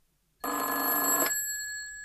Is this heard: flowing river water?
no

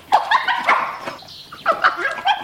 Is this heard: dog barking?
yes

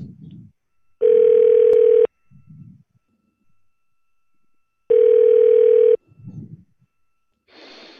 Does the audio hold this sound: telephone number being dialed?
yes

